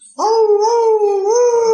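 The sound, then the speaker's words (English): A human voice imitates a jackal's howl in one long, steady, tonal wail that steps slightly higher near the end. It stands alone, with no other voices. “These boys are from the village, you know the sound of the jackal. I've also traveled in villages all over India, Bangladesh, so I know it's the sound of the jackal.”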